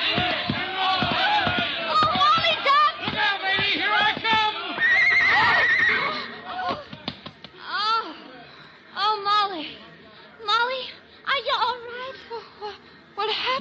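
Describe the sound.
A horse carrying a rider neighs and whinnies loudly several times, with long wavering cries, mixed with people's voices talking.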